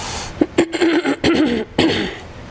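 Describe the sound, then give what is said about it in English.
Someone clears their throat five times in a row, each a short, rough, guttural burst with brief pauses between, loud and alone. “I still have the throat clearing issue, but I'm working on it.”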